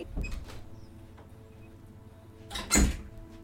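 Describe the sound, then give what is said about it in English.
A house door is opened to let a puppy out: a soft knock at the start is followed after a pause by a louder, brief clunk of the door or latch, against quiet background. “I'm just going to open the door. My puppy's trying to get out.”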